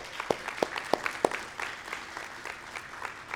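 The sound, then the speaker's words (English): Audience applause honouring people thanked for their sacrifice and commitment to the country, opening with four sharp, evenly spaced loud claps before settling into softer, scattered clapping. “If you would, everybody else give them a round of applause.”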